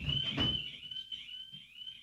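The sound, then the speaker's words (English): An electronic alarm goes off in a studio, a faint, high, sustained tone that holds steady with a slight waver through the whole moment, over a soft low rumble. “You mentioned something bad about Rapoli, then all of a sudden all our alarms go off. Do we have an intruder? I have no idea what that is. Intruder alert.”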